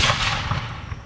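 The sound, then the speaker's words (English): A rifle shot from a Springfield rifle: one broad, loud blast that fades slowly into a long, rumbling tail. “This is the sound of a Springfield rifle.”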